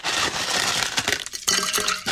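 Ice cubes clink as they drop into a glass: a few bright, sharp clinks over a steady, loud rushing noise.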